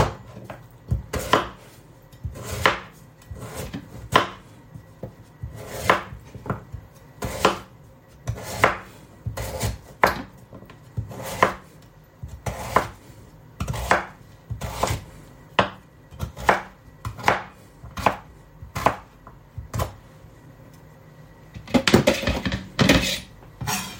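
Knife chopping sweet potato on a cutting board, the tuber steadied by the other hand: many crisp, sharp thunks in an uneven rhythm with short pauses between runs, and a quicker, denser burst of strokes near the end.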